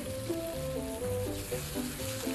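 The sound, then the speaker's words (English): Meatballs sizzle as they fry on a stove, a steady crackling hiss beneath a bouncy melodic music line, with no talk. “Turn up the heat on the stove and cook the meatballs.”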